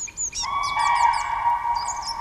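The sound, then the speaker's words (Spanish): Black woodpecker pair, male and female, calling in duet at their nest in Swedish taiga: a few short, repeated chirping notes ring out over a steady, sustained tone, fairly loud with no voices. “Picamadros negro, y ahí el dueto de dos macho y hembra en el nido.”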